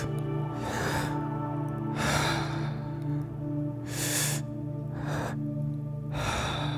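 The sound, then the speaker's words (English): Mouth breathing in a three-part breathing exercise, with deep inhales into the belly and then the chest and a gentle exhale. Five airy, rushing breaths come at a slow, even pace, with no talk and a steady low hum underneath. “It's where we take a deep inhale through your mouth into the belly, then take another breath into the chest and a gentle exhale out through the mouth. It's going to sound like”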